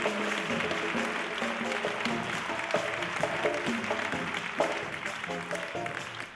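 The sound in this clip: Audience applause at a theatre concert in Pinto for a Latin percussion player, a steady wash of clapping with music playing underneath.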